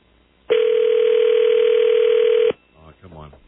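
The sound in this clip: A telephone dial tone plays while someone places a personal call: one steady, unbroken tone at a single pitch that lasts about two seconds and stops abruptly. A voice then speaks briefly.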